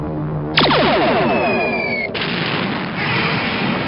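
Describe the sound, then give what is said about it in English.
A weapon firing again at double power, heard as loud electronic zaps with downward-sweeping tones: two sharp blasts, each trailing a dense rolling rumble. “fire again. This time, double power.”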